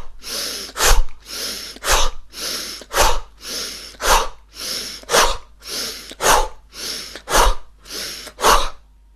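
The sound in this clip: Forceful breaths are pushed out as the arms are pulled quickly down on both sides from overhead in a breathing exercise. Eight loud, rhythmic whooshing breaths come about one per second, each ending in a sharp burst.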